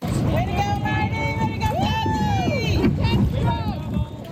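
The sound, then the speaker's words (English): Excited rowers at Prince Edward Island's 10th annual Red Island Regatta cheer on their teammates, with loud shouted encouragement repeated several times over a steady background rumble. “That's the sound of some excited rowers cheering on their teammates at PEI's 10th annual Red Island Regatta.”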